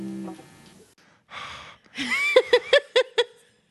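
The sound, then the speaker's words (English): Heavy, labored breathing from a person: a breathy gasp and a long sigh-like exhale, then a run of five rhythmic, partly voiced puffs of breath, moderately loud with no words. “That's what fat people sound like when we breathe normally.”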